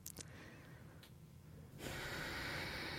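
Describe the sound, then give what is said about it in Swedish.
A deep breath, taken quietly as a soft, airy hiss that grows noticeably stronger and steadier in its second half. “Djupt andetag.”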